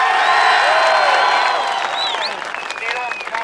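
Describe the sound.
A live audience cheers and applauds in a dense, steady wash of clapping with whoops and shouts, easing slightly toward the end.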